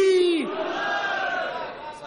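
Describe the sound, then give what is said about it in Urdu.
A crowd at a religious celebration shouts in unison in answer to the Nara-e-Haidari slogan. One voice falls in pitch at the start, then a loud, sustained collective cry follows and gradually fades. “نعرہ حیدری.”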